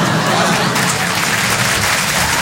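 Loud audience applause at a comedy show in Paris, a thick, sustained roar of many people clapping at once, staying strong and even from start to finish.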